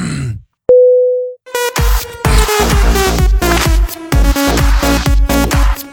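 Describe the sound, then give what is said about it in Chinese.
A phone hang-up tone: a single steady mid-pitched beep lasting under a second, then music starting up right after. “行了，最后给你轻轻挂断了，拜拜。”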